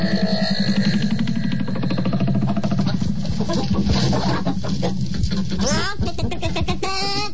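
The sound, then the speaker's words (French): Hens cluck in a henhouse, with many overlapping, busy clucks and squawks. Dense voice-like sounds run throughout, and a burst of sharper clucking comes near the end. “Vous avez vu comme elles sont grosses, les poules, ici?”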